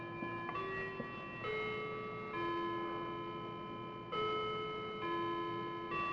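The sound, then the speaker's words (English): Faint clock sound from a production office: a run of sustained, bell-like ringing tones that shift to new notes roughly every second, with no voices. “That's the sound of the clock in the production office.”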